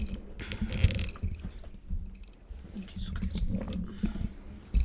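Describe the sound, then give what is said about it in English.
Close swallowing of a drink mixed with Sprite: quiet wet gulps and mouth noises in a few uneven bursts over a low rumbling background. “Sorry for everyone who hates the sound of swallowing. I also hate the sound of swallowing.”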